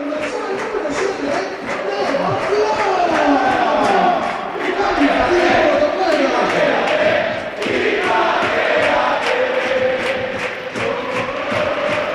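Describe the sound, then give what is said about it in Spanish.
A stadium crowd at a football match gives an ovation for footballer Isma Ruiz, roaring and chanting continuously while a voice talks over the noise. “Ovación para Isma Ruiz. Isma, quédate, ha sonado.”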